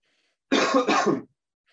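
A person clears their throat with a rough cough, two quick joined rasping bursts lasting under a second, alone against silence.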